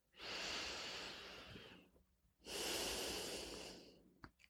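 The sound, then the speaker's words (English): Slow, deep breaths are taken during a guided relaxation exercise, breathing in to a count of five. Two long, quiet, airy breaths each last more than a second, the second slightly fuller, followed by a few faint clicks. “And breathe in to the count of five, inhaling the deep peace of the stars and of God.”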